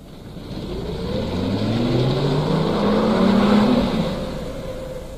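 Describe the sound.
A car engine revs and pulls away, its droning tone climbing steadily in pitch as it accelerates, swelling louder through the middle and easing off toward the end.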